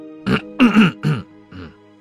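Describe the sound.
A young man's throat clearing and coughing, performed by a voice: four short, harsh bursts, the last one quieter, heard alone.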